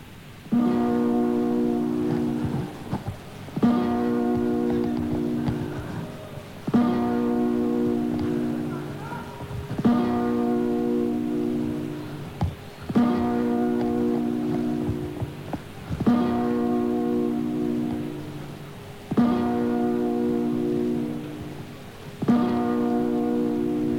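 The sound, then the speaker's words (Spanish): A bell tolls the New Year's Eve midnight chimes: eight deep, resonant strokes, evenly spaced about three seconds apart, each ringing on until the next. “Las uvas preparadas y la primera campanada va a sonar. Ahora, primera campanada.”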